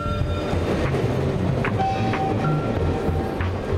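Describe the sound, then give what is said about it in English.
A train rumbles across a railway bridge overhead, a steady low clatter and roar with a few brief high metallic squeals riding on top throughout. “A train rumbles over a bridge overhead.”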